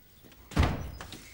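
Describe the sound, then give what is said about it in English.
A door opening with a dull, heavy thump and a softer knock just after, the whole sound brief and muffled. “The door opens.”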